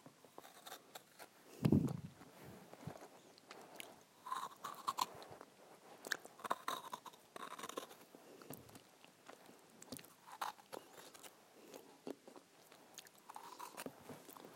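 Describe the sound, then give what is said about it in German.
Close chewing and biting of a glazed biscuit, with glaze licked off and eaten: scattered crunchy clicks and wet mouth noises, with one louder burst near the start and no talk. “So jetzt lecke ich wieder die Glasur ab oder esse sie halt einfach.”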